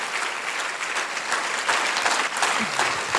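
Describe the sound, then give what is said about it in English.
Applause from a church audience for a guest: a dense burst of many hands clapping that stays full and steady throughout. “I just want to give her a round of applause as well.”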